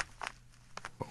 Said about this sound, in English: It picks up sort of paper shuffling. So oh, sorry. Yeah, that's the map. It's the map.